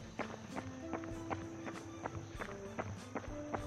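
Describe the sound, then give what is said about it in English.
Running footsteps on asphalt: many light, evenly spaced footfalls in a steady quick rhythm over a constant background hum. “At the moment, I'm on asphalt, but pretty soon I will be running on dirt and then chip.”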